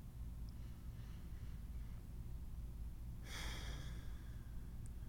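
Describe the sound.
A single deep breath drawn in by a person during a guided calming prayer. It comes as a soft, brief rush of air about two-thirds through, faint over a steady low hum.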